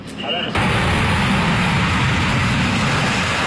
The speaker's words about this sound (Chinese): 像这样的紧急起飞，他们一年要经历几百次。